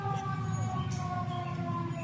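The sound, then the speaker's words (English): A fire truck siren sounds near a playground, a steady wailing tone with layered harmonics over a low rumble, lasting about two seconds. “comes a fire truck. Usually it'll turn up the siren right now.”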